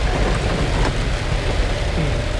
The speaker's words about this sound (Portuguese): Chuva.